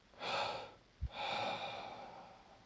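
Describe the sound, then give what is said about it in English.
Soft breathing during a breathing exercise, short and long breaths in and out: a long airy breath, a quick sharp sniff, then another long, slowly fading breath, all quiet and alone. “Just experimenting with that short breath, long breath, in, out.”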